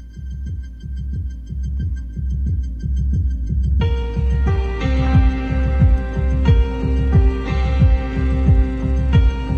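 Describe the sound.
A rock song intro opens on a steady, pulsing low drum beat that repeats throughout. Midway, a sustained synth chord layer joins in and thickens the sound, with no vocals.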